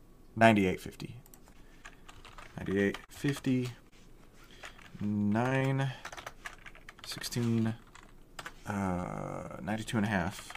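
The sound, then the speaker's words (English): Computer keyboard typing as a stock options order is entered: many rapid key clicks in bursts, heard under and between stretches of people talking. “I'm going to type it out here.”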